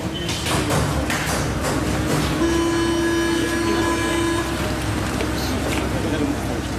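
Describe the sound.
A metro train gives a steady, loud rumbling roar. A sustained mid-pitched tone holds for about two seconds partway through while people talk over the noise.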